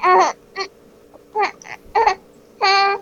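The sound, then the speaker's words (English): A baby grunting and vocalizing in about five short, voiced, strained bursts separated by pauses, the final one longest and fullest, loud and clear with no adult speech. “It's not pacifier time. That is what that grunt means.”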